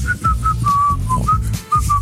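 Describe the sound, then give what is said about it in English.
A person whistles a tune somewhat poorly, with a few short clipped notes followed by longer held ones in a bright, steady pitch, loud and alone with no talking. “You whistle as poorly as you sing.”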